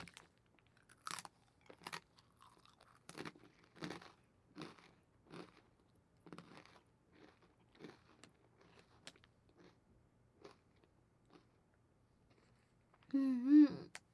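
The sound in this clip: Crunchy pretzel being chewed: many sharp, crackling crunches in an uneven rhythm, loud at first and then softer, ending with a short voiced hum.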